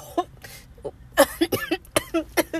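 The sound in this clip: A person coughs and clears their throat in a rapid series of short, harsh bursts with brief pauses between them.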